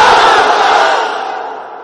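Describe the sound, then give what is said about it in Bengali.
The unmarried group at a gathering shouts "Lillahi Takbir" in unison, a single loud massed roar of many voices that fades over about two seconds. “এবার তোমরা পড়ো তো লিল্লাহি তাকবীর,”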